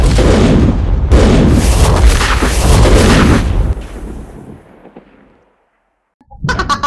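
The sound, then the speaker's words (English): A chain reaction of explosions in a video game: dense, loud booming and rumbling blasts overlap for several seconds, then fade into a long decaying rumble and silence before another sharp burst erupts. “And that starts a chain reaction down to here, which makes those explode, which also makes this explode. Which also makes this explode.”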